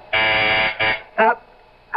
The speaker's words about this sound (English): That's the phone buzzer from downstairs